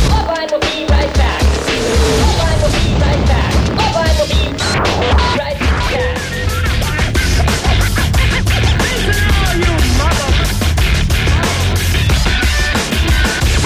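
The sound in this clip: DJ turntable scratching and mixing: rapid, stuttering chirps and cuts run over a loud, driving beat for the whole stretch, dense and busy throughout.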